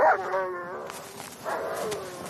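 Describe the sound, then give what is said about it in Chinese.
A police dog finding a transmitter buried in snow gives two drawn-out, whining yelps separated by a short pause. The cries are tonal and moderately loud over a faint noisy background. “警犬发现了埋在雪地里的发报机。”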